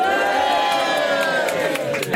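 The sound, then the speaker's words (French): A crowd at an open house at a media company's building fills the air with overlapping voices and cheering shouts, a loud, steady murmur with pitched calls rising and falling. “je suis entouré par une multitude de foule.”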